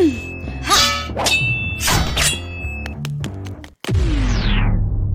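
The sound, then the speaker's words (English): Metallic clangs and clinks ring out as a dagger strike is blocked, a quick irregular series of bright impacts closing with one loud ringing strike that slowly decays. “I'll sidestep, then slice with my dagger after he misses. He won't see that coming. Now! Shit! He blocked it?”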